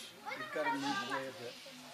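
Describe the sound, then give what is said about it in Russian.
Young children make noise in a room, a short burst of high, lively babbling and squeals that swells and then tapers off. “One of the mothers quiet the children down there.”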